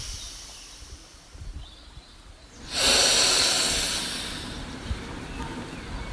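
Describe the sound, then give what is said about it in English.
One deep breath is drawn in inside a small building once used to dry corn. After quiet ambience, a sudden loud rushing hiss swells and then tapers away over about a second and a half. “This is just one breath.”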